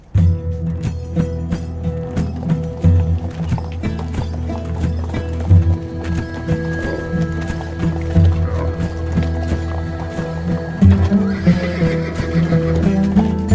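Hoofbeats of the Prophet's camel Qaswa setting off: a steady, loud clip-clop of hooves runs throughout, joined by whinny-like animal calls.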